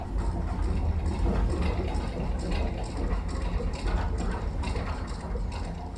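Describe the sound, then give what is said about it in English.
A time-stretched, pitch-lowered recording of a fast-moving mechanical device gives a dense, steady rumbling texture with a repeating rhythmic pulsing running throughout at an even loudness. “I made different time-stretched versions of the recording by taking a very fast-moving mechanical device like a machine and stretching it in time and pitch enables you to hear the rhythms.”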